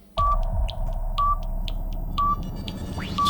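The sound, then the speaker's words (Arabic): Radio time-signal beeps: four short, steady mid-pitched pips spaced evenly one second apart, ringing out over a constant low background rumble. “يلا نسمع سوا دقات الساعة”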